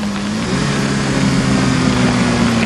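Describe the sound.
A car engine runs as the car pulls over onto the roadside and stops, giving a loud, continuous low droning hum with steady tone and a constant rumble beneath.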